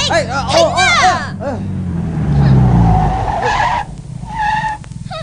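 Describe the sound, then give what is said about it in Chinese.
Tire squeal of a sports car skidding to a sudden stop, a long loud screech over engine noise, with shouting voices at the start. “好彩停得快啫，架跑车啊，撑啲就飞咗落悬崖噶啦”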